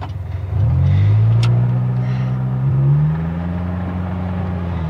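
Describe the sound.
A car engine starts and revs, settling into a loud, steady low rumble that swells briefly near the middle before easing back to a steady drone.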